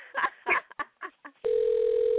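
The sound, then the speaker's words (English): A telephone dial tone, a steady single-pitched hum that begins abruptly after a few short, broken sounds, as a call is placed. “I hope he answers the phone because, you know, some people don't answer phone calls they don't know.”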